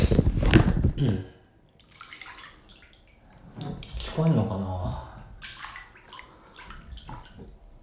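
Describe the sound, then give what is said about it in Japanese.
Water splashing in a bath: a loud splash at the start, then quieter sloshing and drips while a person talks. “ちゃんと聞こえる、まあね、ジップロックに入れてね、普通にお風呂入ってるよ”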